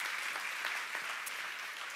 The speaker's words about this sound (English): Can we welcome our folks online as well? Give them a hand this morning for joining us.